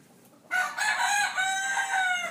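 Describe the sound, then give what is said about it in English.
A rooster crows among a farm flock of rare chicken breeds. After a short quiet opening comes one long, loud, strained crow that holds with wavering pitch to the end. “Matthew Nelson also tends to some very rare breeds of chickens. Well, with these flocks that we have,”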